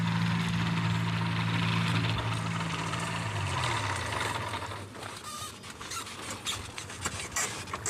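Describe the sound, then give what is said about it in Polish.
A light aircraft's engine idles as the plane taxis after landing. A steady, droning harmonic hum drops in pitch partway through, then gives way to rough, crackling rushing noise with no talk. “Dobrze i przyziemienie. Bardzo dobrze. Podkołuj do nas. No i wylądował.”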